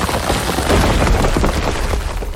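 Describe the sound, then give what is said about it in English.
Crashing rock-attack effect from a turn-based battle video game's Boulder Bash move, a dense rumbling burst of booms and cracks that stays loud for its whole length. “Soul Doctor used Boulder Bash.”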